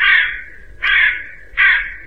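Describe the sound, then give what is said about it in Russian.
A crow cawing: three loud, harsh caws, evenly spaced about three-quarters of a second apart, each a raspy burst that fades slightly, with no other sounds. “Ворона. Ее не узнать невозможно.”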